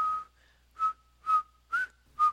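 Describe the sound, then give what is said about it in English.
A person whistles a jaunty tune while walking down a street: five bright, short notes at a nearly steady pitch, in an even rhythm. “whistling a jaunty tune as I make my way down the street”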